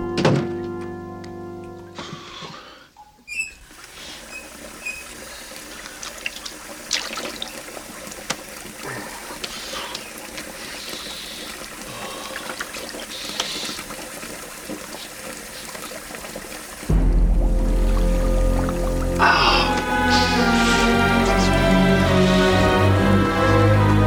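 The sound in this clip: Water running from a sink tap, a steady noisy splash with occasional thuds, growing louder and fuller toward the end.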